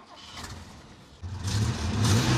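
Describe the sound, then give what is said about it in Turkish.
A Ford car engine running with a low, even hum, then stepping up sharply louder about halfway through as it revs and stays raised. “Arabada oturuyorum ve çalışıyor.”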